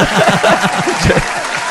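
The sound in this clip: Loud applause from a live show audience giving a standing ovation to a magic performer at the Vortex, dense clapping mixed with excited voices.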